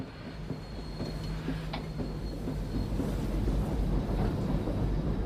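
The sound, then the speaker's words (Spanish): Military train travelling to the front carries troops in wartime, its wheels rumbling steadily over the rails with a constant rolling clatter and a faint high squeal running above the noise. “Te escribo desde el tren que nos lleva al frente.”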